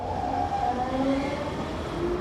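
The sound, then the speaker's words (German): Subway train rumbling steadily, a dense low roar of wheels and carriage with faint tonal motor whines drifting above it throughout, loud and continuous with no clear breaks. “Ich nehme dafür die U-Bahn.”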